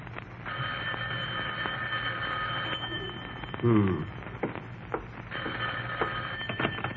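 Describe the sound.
A telephone rings in two long, steady bursts of bright ringing. A brief voice is heard between them.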